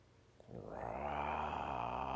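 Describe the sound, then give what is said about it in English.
A cartoon stomach growl from a hungry character rises out of near silence after half a second into a low, buzzing, sustained rumble that holds steady to the end. “Growl. Oh no. Oh, my tummy's growling.”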